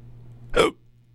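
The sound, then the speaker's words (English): A single hiccup, a short, sharp voiced burst that rises abruptly and cuts off, standing out over a faint low hum with no talk around it. “since I lost a lot of time due to my hiccups”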